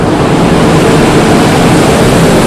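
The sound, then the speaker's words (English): Wheat pours into a ship's six huge cargo holds on deck, kicking up dust. It makes a loud, steady, dense roaring rush that holds constant for the whole stretch, with no talk. “That's the sound of wheat pouring into the six huge cargo holds in the deck.”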